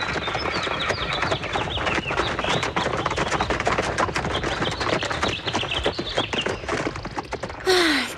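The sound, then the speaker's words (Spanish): Horse trotting while pulling a cart on a farm outing: a fast, steady clatter of hoofbeats runs throughout with a dense rattling texture, loud and without talk. “¿Les gustaría dar un paseo en carro? ¡Sí! Les presento a Ventarrón. ¡Salgamos al trotecito!”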